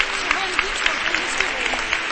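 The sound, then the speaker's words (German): A church audience applauds with dense, steady clapping that lasts the whole time. “Gott einen Applaus geben.”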